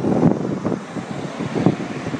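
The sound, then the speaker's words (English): Gusty wind outdoors in windy, rainy weather on a walk, buffeting the microphone with a loud, low rumbling roar that swells and eases in a few uneven surges. No voices. “It has gone awfully windy and rainy”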